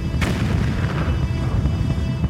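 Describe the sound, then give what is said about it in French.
A Japanese artillery barrage fires on Marines: deep, rolling booms merge into a continuous heavy rumble, with one sharp blast standing out near the start. “Les Japonais ripostent par un imposant barrage d'artillerie.”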